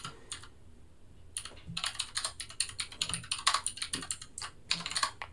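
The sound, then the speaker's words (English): Fingers type on a computer keyboard in quick, uneven bursts of many light clicks, separated by short pauses. The sound is fairly faint and no one talks. “I don't remember the thing, so I'm just having to type in random fucking syllables into Google”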